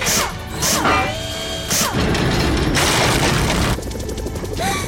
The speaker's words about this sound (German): Beeilt euch! Der Zement bröckelt ab!